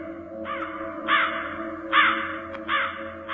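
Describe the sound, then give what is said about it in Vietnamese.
A crow perched on top of a grave gives four harsh, mournful caws, evenly spaced, with the first one fainter than the rest. “Con mắt của con quạ đỏ lòm lòm, nghiêng nghiêng đầu nhìn vào ông Giang rồi kêu lên mấy tiếng thảm thiết.”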